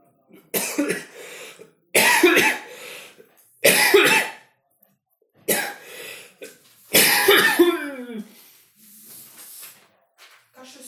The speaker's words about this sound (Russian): Кашель сухой, да?